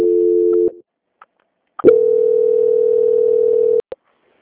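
A telephone line tone plays during a call transfer. A steady, loud beep cuts off after under a second, then after a short pause a longer identical tone holds for about two seconds and ends with a click.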